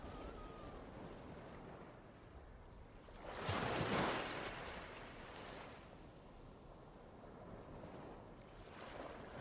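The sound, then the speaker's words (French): Ocean waves wash onto a sandy beach. Soft, steady surf hiss swells into one fuller breaking surge midway, eases back, and begins to rise again at the end, faint overall. “Vous entendez les vagues, quelques oiseaux au loin.”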